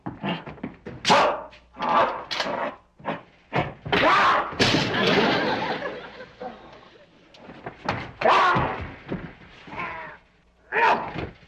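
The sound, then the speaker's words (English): A vicious 800-pound gorilla roars and growls in a series of loud, harsh bursts separated by short pauses. “What's that? It's a vicious 800-pound gorilla. He'll tear him to shreds.”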